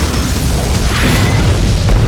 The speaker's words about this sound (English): When flame met hissing gas, the explosion was instantaneous. With a rumbling burst, the entire kitchen erupted in a ball of brilliant fire.